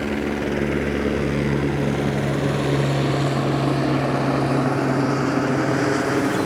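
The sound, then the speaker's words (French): A helicopter on reconnaissance over a bay during a rescue gives a steady, loud rotor and engine drone that holds without a break from start to finish. “Alors, un sauvetage dans la baie avec un hélico en reconnaissance.”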